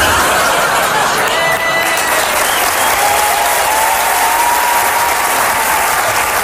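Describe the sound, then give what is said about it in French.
Audience giving a standing ovation: loud, dense, continuous applause from many hands that stays at a constant level throughout. “Et si jamais vous aviez l'intention de me faire une standing ovation à la fin, je vais vous demander de me la faire, mais maintenant.”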